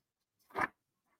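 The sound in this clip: An envelope is opened at an awards night: one brief, faint rasping tear lasting a fraction of a second, alone in otherwise near-silence.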